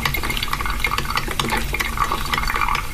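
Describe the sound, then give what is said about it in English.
A coffee pot brewing gives a continuous bubbling hiss with soft gurgling pops and crackles, holding an even level throughout. “Mike D, tell us what yesterday's secret sound was. It was a coffee pot brewing.”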